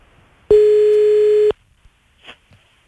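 A telephone tone heard while a call is placed back: a single steady, buzzy hum about one second long that starts and stops abruptly, then near silence with a few faint clicks.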